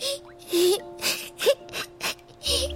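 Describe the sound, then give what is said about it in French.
A young girl crying in faint, breathy sobs and gasps, several short bursts broken by wavering whimpers and moans. “Arrête de pleurer ou tu vas inonder la maison”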